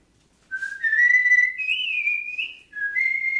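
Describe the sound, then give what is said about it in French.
A man whistles an old song in clear, pure sustained notes that step upward in pitch, dip briefly, then resume higher after a short gap. The whistling starts after a moment of silence. “qui chante, qui siffle. Tu vas voir son espèce de vieille chanson qui siffle.”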